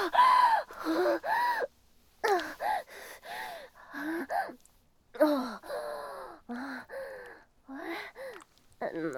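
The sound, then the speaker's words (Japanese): A man panting and out of breath, with many ragged, gasping breaths that carry voiced, moaning edges, coming in uneven bursts with short pauses. “さてはおっさん息切れか。”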